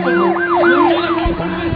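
A loud siren wails over a city under bombardment, filled with smoke and dust. Its pitch rises and falls in several quick sweeps over a steady low hum.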